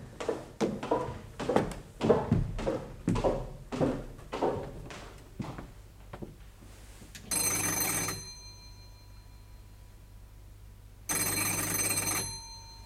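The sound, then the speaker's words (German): An electric doorbell rings twice at an apartment door. Each is a loud, bright, sustained buzz of about a second or more with a gap between, following a run of irregular thuds. “Auf das Klingeln an der Tür mit dem Namensschild Rotholz öffnet niemand.”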